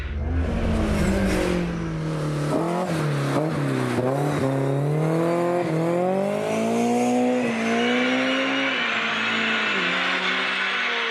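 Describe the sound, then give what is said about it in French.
A car engine revving quickly from about 6000 to 8000 rpm, a loud, sustained harmonic whine that rises and falls repeatedly through high revs over roughly eleven seconds, with no voices. “Franchement, il monte dans les régimes à une vitesse absolument incroyable. Il passe de 6 à 8000 tours en une fraction de seconde.”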